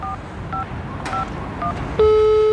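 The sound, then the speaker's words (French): Touch-tone keypad dialing a call to an embassy: four short dual-tone beeps spaced about half a second apart, then a loud steady tone that begins and holds to the end. “On appelle l'ambassade du Qatar pour avoir notre petit carton d'invitation.”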